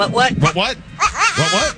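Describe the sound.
A goat bleats a few times in quick succession. The cries are wavering, nasal and fairly loud, with short breaks between them.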